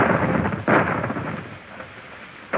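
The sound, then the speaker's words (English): Warship cannon fire: heavy booming blasts in a dense, continuous low rumble, with a sharp burst near the start and another abrupt burst at the very end. Loud throughout and fading slightly in the middle. “Those are the guns of the Indefatigable.”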